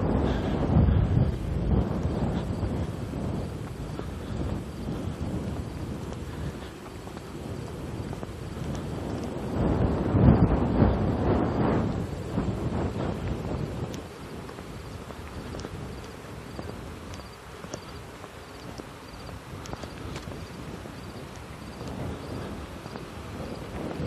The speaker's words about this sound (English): wind blowing good right at the moment. Feels terrific.